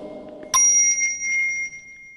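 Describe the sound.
A Buddhist monk strikes an orin bowl bell once, giving a bright metallic ring whose steady high tones hold and slowly fade.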